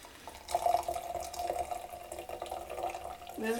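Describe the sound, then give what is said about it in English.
Lager poured into a cocktail in a tulip glass: a soft, steady stream of liquid lasting a few seconds, with light gurgling and a brief lower tone at the end. “So we do need to add some lager, so we're going to add in.”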